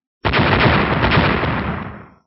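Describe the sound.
Explosions from the weapons of a giant silver battleship: a sudden loud, broad blast that rolls on as a dense rumbling roar, then fades out over about two seconds.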